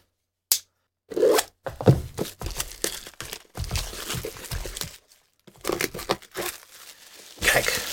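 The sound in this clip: Plastic packaging is torn off and crinkled while a case holding pliers is opened, heard as irregular bursts of ripping and rustling with short pauses between them.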